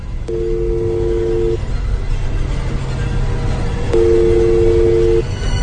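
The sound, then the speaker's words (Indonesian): Ringback tone on an outgoing phone call: two steady, low buzzing tone bursts, each a little over a second long, separated by a pause, over a constant background hiss. “Karena cukup kesal mendapatkan pesan-pesan itu, aku pun coba menelpon balik.”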